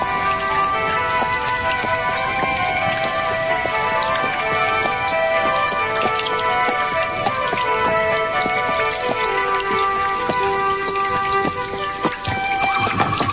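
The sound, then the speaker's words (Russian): Heavy rain pours down in a sudden downpour on the road near a country post station, a dense, steady hiss of countless drops spattering without pause, loud and unbroken throughout. “В трех верстах от станции стало накрапывать, и через минуту проливной дождь вымочил меня до последней нитки.”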